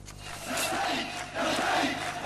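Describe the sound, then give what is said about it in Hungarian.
A large crowd near Homs, Syria, cheers for a rebel army, a dense sustained roar of many voices that swells twice and stays loud throughout. “Hatalmas tömeg élteti a szíriai szabad hadsereget Homstól nem messze.”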